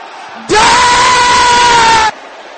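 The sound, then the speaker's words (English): An audience of men shouting angrily together during a church service: one loud, sustained collective roar of about one and a half seconds that starts and stops abruptly, with quieter sound before and after it. “Brothers shouting with holy anger.”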